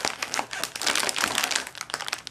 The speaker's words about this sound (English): This packaging is pretty rough. I could get the scissors. Just about got it.